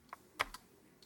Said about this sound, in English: So now if I press enter on Go Read.